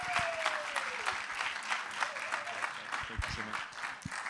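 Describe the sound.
Applause from a church audience at Life Christian Center welcoming a preacher to the stage: dense, steady clapping that fills the whole stretch at an even level.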